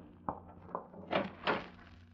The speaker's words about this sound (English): open the closet door